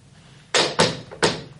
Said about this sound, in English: I'm going to pick it up in my handkerchief. So, open the window and hurl it out.